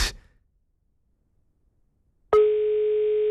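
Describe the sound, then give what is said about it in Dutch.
A telephone call ringing out: a short click, about two seconds of silence, then one steady, clear ringing tone that holds for roughly a second. “Misschien bellen we hem nu wakker van zijn slaapbed.”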